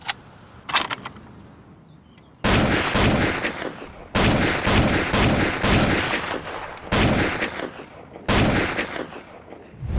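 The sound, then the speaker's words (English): A World War I Lewis machine gun fires several loud, sharp bursts of rapid shots separated by short pauses, with a few faint isolated shots before the first burst. “this is a Lewis gun, one of the classic machine guns of World War I”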